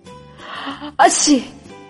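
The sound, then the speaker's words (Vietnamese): A man gives a single sudden sneeze, a sharp loud burst that cuts in midway over a steady, faint tonal background. “Bạch Ngọc Đường đi đến trước cửa, đột nhiên hắt xì một cái”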